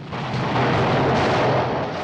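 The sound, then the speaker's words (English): An explosion strikes a tank side on and tips it over amid fire: a heavy, sustained roaring blast with deep rumble, loud and unbroken for about two seconds before cutting off. “An explosion hits the tank side on, tipping it over onto its side.”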